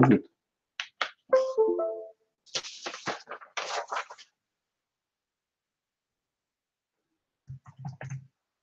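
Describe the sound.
Typing on a computer keyboard: a few crisp clicks and short clattering bursts, with more quiet tapping near the end, mixed with a talking voice.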